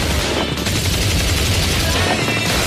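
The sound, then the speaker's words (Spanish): Machine-gun fire: a dense, loud rattle of rapid bursts that fills the whole clip without a break. “A ver, ¿quién ha sido? ¿Quién ha disparado con la ametralladora?”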